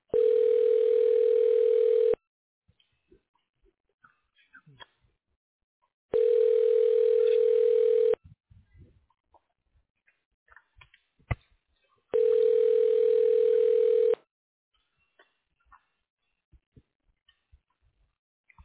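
Telephone ringback tone sounding while a hospital call is transferred: three steady, mid-pitched buzzing rings of about two seconds each, separated by longer silent gaps, with a few faint clicks between them.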